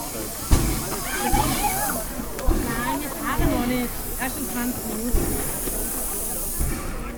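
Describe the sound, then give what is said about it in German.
The air pump of a Prussian T3 steam locomotive hisses steadily, punctuated by a few heavy thumping strokes, while people talk over it. “Und das ist die Pumpe der Lok 30, eine preußische T3.”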